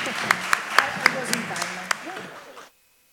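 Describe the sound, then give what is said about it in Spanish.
Applause for panelists at the end of a seminar: a soft, steady patter of clapping with a few louder claps and voices underneath, cutting off abruptly. “Un aplauso final para los panelistas.”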